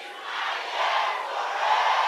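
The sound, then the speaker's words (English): A church audience shouting together in a loud, sustained roar of many voices. The dense, unbroken wash of cheering swells slightly toward the end. “Are you with me? Now shout, it's my year to reign.”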